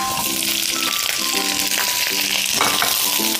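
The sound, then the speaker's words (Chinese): Minced garlic and baby cabbage frying in hot oil over low heat give a loud, dense, continuous sizzle and crackle that never lets up. “油热以后开小火，倒入蒜末爆香。随后倒入娃娃菜”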